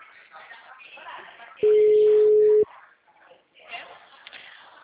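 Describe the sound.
A single steady telephone line tone sounds for about a second while a phone call is being placed. It is loud and mid-pitched, with people talking before and after it.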